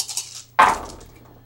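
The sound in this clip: Eight dice rolled at once give a sudden clattering burst that rattles briefly and then fades, after a softer stretch of noise.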